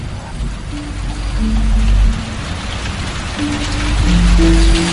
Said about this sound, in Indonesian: Yang ada hanya suara rintik hujan dari atas genting-genting rumah.